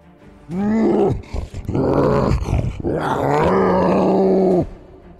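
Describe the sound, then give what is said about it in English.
A bear creature in a video game roars: a long, loud, rough bellow with growling, shifting tones and a couple of short breaks, heard alone. “Right, okay, so I am going to roar, and then I'm going to multi-attack.”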